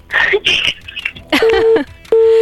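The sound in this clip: Telephone busy tone after a caller's line disconnected mid-conversation: brief garbled voice sounds on the line, then a steady mid-pitched beep and a second, longer one that runs to the end.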